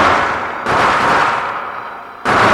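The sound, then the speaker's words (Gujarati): Dense, loud firecrackers burst in a continuous crackling roar at a midnight festival marking Krishna's birth, attended by thousands of devotees. The noise surges abruptly twice and barely fades in between. “ફટાકડા આદિ ફૂટવા લાગ્યા છે.”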